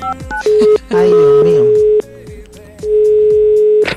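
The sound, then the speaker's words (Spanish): A telephone tone sounds while a call is being dialed: a few short beeps, then a long, flat, steady tone held in several stretches, with voices talking over and between it. “Por eso le vamos a marcar en estos momentos para ver cómo nos sorprende el Instituto Milford.”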